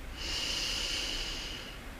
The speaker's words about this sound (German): Atme tief ein.